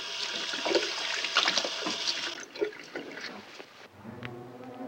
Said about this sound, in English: he steps into the bathroom and washes his hands in the sink. He wipes the sink clean as the blood washes from his hands.